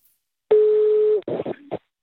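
A telephone line tone sounds while calling someone: one steady, mid-pitched tone of under a second, then a few short, broken bursts and a brief final tone.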